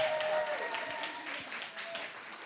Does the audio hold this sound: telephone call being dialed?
no